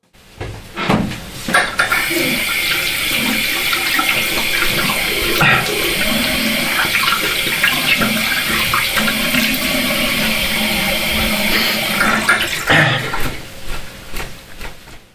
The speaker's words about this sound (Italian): Pochi secondi dopo sono andato in bagno e ho aperto il rubinetto.